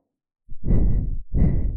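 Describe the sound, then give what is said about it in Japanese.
Warm, ticklish breath blown close to the ear: two long, soft exhalations follow each other with a brief pause between, breathy and airy with no voice. “脳みそ溶けちゃうくらいあったかくてくすぐったい吐息”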